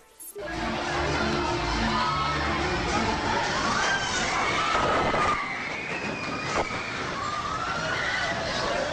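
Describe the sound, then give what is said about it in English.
Crowd noise erupts in a nightclub in Valparaiso, Chile as the earthquake strikes. A loud, sustained rumbling din fills the scene, with shrill shouts and screams rising over it. “This is the sound of amateur video taken at a nightclub in Valparaiso, Chile when the earthquake struck.”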